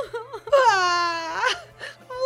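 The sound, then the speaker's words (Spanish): A child crying in a Spanish children's story, the character Luca sobbing after his grandmother fails to understand him: one long, wavering, high-pitched wail of about a second, then shorter whimpering sobs. “Pero como la abuela no le entendía, se puso triste y se puso a llorar.”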